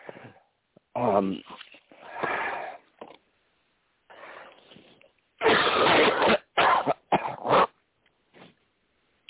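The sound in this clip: Coughing and throat clearing to bring up mucus, a series of harsh bursts of uneven length with short pauses between them, loud and heard without talk.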